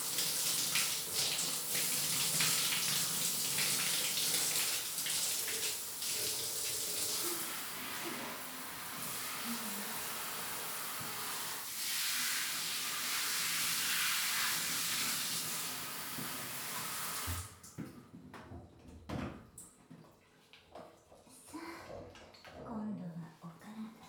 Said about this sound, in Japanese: こちらで洗っていきますね。